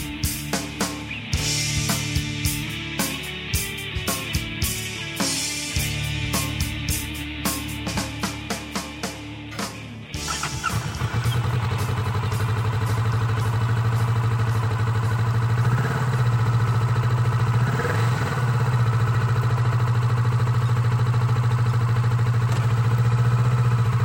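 A motorcycle engine revs in a rapid run of short throttle blips, then settles into a loud, steady low rumble at idle, swelling briefly a couple of times.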